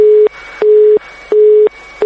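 Busy tone on a factory telephone line that was cut off for unpaid debts: a loud, steady, mid-pitched beep that repeats at an even rhythm, each beep separated by a short gap of quiet.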